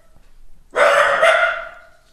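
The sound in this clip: A dachshund barks once at a noise in the stairwell: a single sharp, loud, mid-pitched bark that fades after about a second, alone with no talk.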